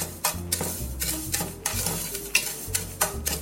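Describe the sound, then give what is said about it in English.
Oil-toasted breadcrumbs are stirred in a pan, making many dry, scraping strokes in an uneven rhythm over a soft, constant sizzle. “And then give them another quick stir.”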